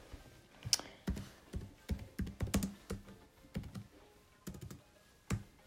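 Typing on a computer keyboard: many quick, light keystrokes in an irregular, bursty rhythm, with a few sharper clacks standing out. The overall level is faint.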